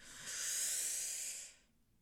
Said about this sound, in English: So we're going to inhale through our nose and we're going to exhale through our mouth.